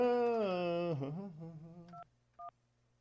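Telephone keypad dialing tones: two short, clear dual-pitched beeps close together. A longer, wavering tone that drops in pitch plays just before them.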